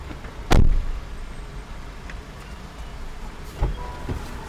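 Car interior noise while driving: a steady low rumble and road hiss, broken by a couple of sharp thumps, with no talk.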